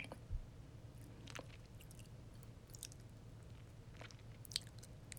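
Wet mouth licking sounds: a few soft, moist smacks and clicks, faint and intermittent over a low steady hum, with no talking.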